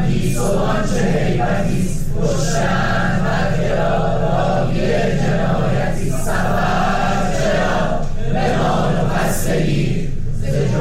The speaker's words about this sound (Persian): تصاویر منتشر همچنین حاکی است که دانشجویان دانشکده های مهندسی شیمی و نفت و کامپیوتر دانشگاه شریف هم دست به تحصن زدند و دست جمعی سرود زن را خواندند.